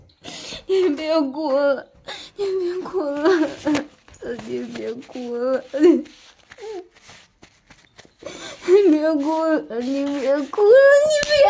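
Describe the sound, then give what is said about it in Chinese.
A person cries and whimpers in a series of high, wavering voiced sobs, each short burst bending in pitch, separated by brief gaps and ragged breaths. “你别哭了呀！”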